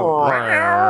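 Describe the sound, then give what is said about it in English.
A stray cat meowing: a single drawn-out, loud meow lasting under a second, its tone wavering and rising slightly in the middle before settling, heard on its own. “Sounds like a stray cat.”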